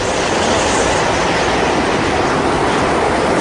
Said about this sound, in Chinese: 哦，台风要来了哦，风有点大哦。